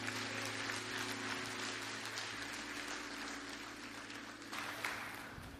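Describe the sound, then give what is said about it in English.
Church audience applause welcoming a pastor on stage: dense, steady clapping with a low, sustained musical tone beneath it, holding at a fairly even loudness before fading out at the end. “So if you would, one more time, put your hands together. Let's welcome Pastor Bayless Conley.”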